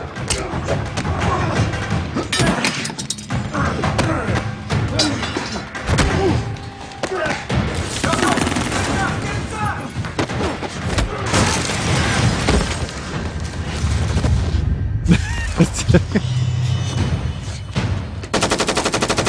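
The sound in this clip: Gunfire from a movie scene: dense bursts of machine-gun and gunshot fire mixed with heavy thuds and slams, loud and nearly continuous, with people talking over it.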